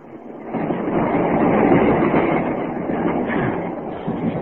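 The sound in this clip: A train runs on rails, heard from inside a carriage as a steady, loud, low rumble with broad rattling noise throughout. No one speaks.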